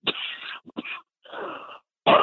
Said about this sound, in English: Oh, sorry. Allergies. I choked up. There's some pollen out here, too.